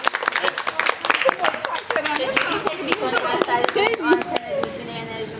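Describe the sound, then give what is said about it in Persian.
Audience clapping mixed with talk: many sharp, fast hand claps run through the whole stretch, with voices speaking over and between them. “مرسی، بهتون دست بزنید.”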